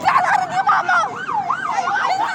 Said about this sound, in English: Finally, an ambulance.